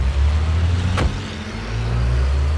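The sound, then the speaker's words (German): A Bentley pulling away with a steady, low engine drone. A single sharp thud cuts through near the start, and the engine note carries on and swells slightly toward the end. “noch bevor sie die Tür ganz geschlossen haben, fahren sie hinter unserem Wagen an.”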